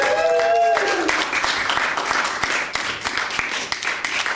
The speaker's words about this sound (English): hands together and welcome us to the stage.